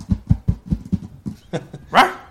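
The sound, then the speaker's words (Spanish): A dog barks a quick series of short, low barks in a steady rhythm, then finishes with a longer, higher whining yelp. “Giovanni, que extrañan hasta Snickers, los ladridos de Snickers. Aquí están los pasitos.”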